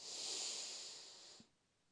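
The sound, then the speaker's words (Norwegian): A single long breath is drawn in through the nose during a guided relaxation breathing exercise. It makes a soft, airy hiss that swells, holds, then fades out after about a second and a half. “Så gjør vi det en siste gang. Pust inn gjennom nesa,”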